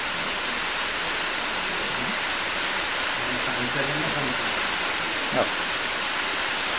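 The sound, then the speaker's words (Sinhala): Rain makes a steady, dense hiss that fills the whole stretch at a loud, even level. A faint voice murmurs beneath it partway through. “ඔය සද්දය ඇහෙනකොටම වහිනවා කියලා හිතෙනවනේ. වැස්ස කොහෙද තියෙන්නේ?”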